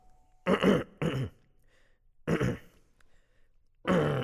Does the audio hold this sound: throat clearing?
yes